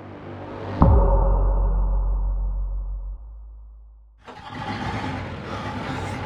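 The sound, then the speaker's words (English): A big Land Rover engine starts in the middle of nowhere at about 2 a.m. A sharp ignition burst settles into a loud, steady low rumble that slowly fades, then gives way to a louder, broader roar. “It's something like 2 a.m. and I'm driving George the Farmer's massive Land Rover in the middle of nowhere.”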